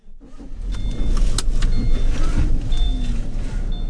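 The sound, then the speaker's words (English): A car drives along with a steady low engine rumble and road noise that swells in after a quiet start, with faint high whines and clicks above it. “I drive over to butternut gutter with Bill from the library to talk to some neighbors.”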